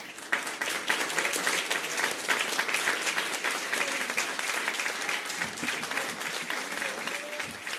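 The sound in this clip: Warm applause for vaccine researchers: dense, steady clapping from many hands that keeps an even loudness throughout, with no pauses or talk.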